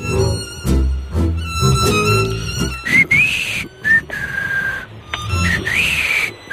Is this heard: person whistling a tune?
yes

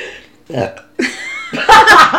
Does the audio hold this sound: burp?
yes

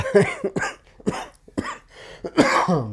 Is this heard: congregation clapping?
no

